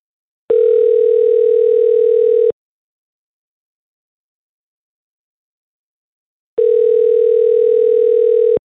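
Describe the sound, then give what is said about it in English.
Telephone line tone while a call is placed: two steady, low-mid tones, each about two seconds long, separated by a four-second silence, loud and alone with no voices. “let's call Cassie and see if we can get a hold of her and find out what the situation is”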